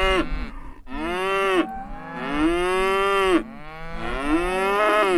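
Cattle mooing on a farm with calves: loud, drawn-out lowing calls, each swelling and falling in pitch, one after another with short gaps between.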